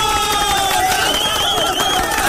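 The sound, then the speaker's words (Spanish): Loud crowd cheering during a Peruvian radio program, a dense, continuous roar of many voices with sustained shouts, steady from start to finish. “¡Aplauso por eso!”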